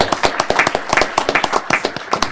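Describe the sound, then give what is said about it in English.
Applause for children at a council meeting: a small group clapping loudly and steadily in a continuous run of sharp claps. “Let's give them a hand for their effort.”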